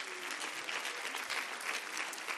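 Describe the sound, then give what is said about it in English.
A church audience claps its hands in praise during a service, making soft, continuous applause that stays faint and even from start to finish. “Clap your hands and give God praise right now.”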